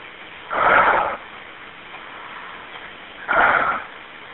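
A person takes a deep breath on request, heard as two broad, airy whooshes about three seconds apart with low hiss in between.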